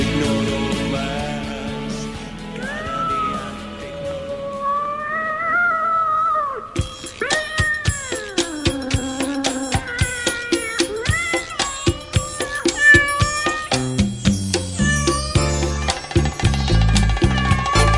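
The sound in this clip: Cat meows ring out over sustained musical tones, then a steady, punchy percussive beat joins partway through while more meow-like cries continue on top.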